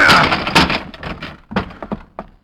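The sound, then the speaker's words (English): Forcing open a locked door: a burst of heavy thuds and sharp wooden cracks, loud at first, followed by a quick run of shorter, fainter knocks and snaps. “I hit two wrong doors before I found the one I wanted, and I had to spring the lock.”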